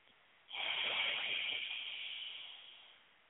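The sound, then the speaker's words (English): A single long exhale through the nose, a soft, breathy hiss that begins abruptly and slowly fades over about two and a half seconds, heard alone with no talk over it. “Breathe out through your nose. One more time. And breathe out.”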